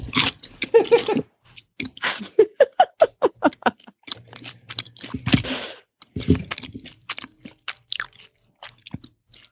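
Crisp, rhythmic crunching and chewing of hot buttered toast spread with Marmite or Vegemite, many bites in quick succession with short pauses between them.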